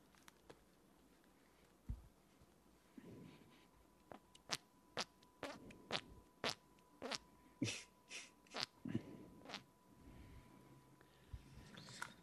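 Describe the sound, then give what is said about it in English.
Fart noises squeezed out with the shoulder and neck, a body-made imitation rather than real flatulence; many short, squelchy pops come in an uneven run, fairly quiet overall. “So this is a shoulder neck fart.”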